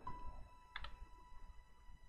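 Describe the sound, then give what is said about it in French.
A computer mouse double-clicks during an escape game: two quick, faint clicks in close succession over low background noise. “Ah, oups, il y a eu un double clic.”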